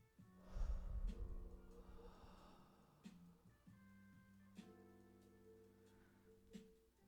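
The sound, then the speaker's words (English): One deep breath in a guided breathing exercise, drawn in loudly through the nose and let out through the mouth, with soft sustained tones held underneath. “Get yourself ready for a nice big inhale. Through your nose and out through your mouth. Just one big one.”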